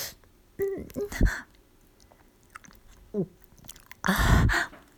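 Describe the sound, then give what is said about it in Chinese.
Someone chews and eats food in a few short, wet bursts of mastication separated by quiet gaps. The strongest, longest burst comes near the end. “不许吐，吃掉。”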